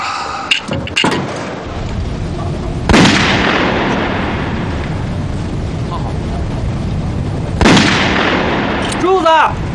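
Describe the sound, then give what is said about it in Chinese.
Machine-gun fire in a wartime scene: a dense, continuous rattle of shots with two sharp, loud blasts standing out, and a voice briefly heard at the end. “停止射击，全体起立。”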